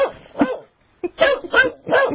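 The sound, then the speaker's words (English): An 8-year-old golden retriever barks in a series of short, sharp barks and yips in uneven bursts, with brief pauses between groups. “sometimes you can hear him barking in the background.”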